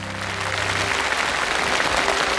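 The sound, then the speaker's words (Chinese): Audience applause at a live product demonstration, a thick, steady wash of clapping that holds at an even loudness throughout, with a brief tonal trace fading out at the start. “掌声鼓励一下”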